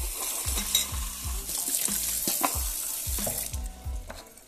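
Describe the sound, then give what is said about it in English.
Water runs from a kitchen sink tap while a cardboard cup is rinsed under it. The rush is steady and moderately loud, with uneven splashing and a series of low knocks throughout. “I'm about to turn my sink on, just real quick.”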